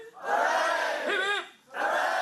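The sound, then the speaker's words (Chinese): A crowd at a Hong Kong university viewing of the Shenzhou-23 spacecraft launch cheers in two loud bursts of excited shouting, separated by a brief dip, with a wavering cry between them. “跟随着飞船顺利升空，现场随即传出欢呼和掌声。”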